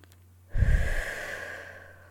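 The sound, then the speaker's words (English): A single breath during a guided relaxation, starting abruptly with a loud breathy puff that then softens and trails away over about a second and a half, alone without speech. “Take another breath.”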